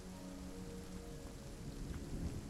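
Steady rain falls in a continuous, dense wash, with a low rumble underneath and no voices.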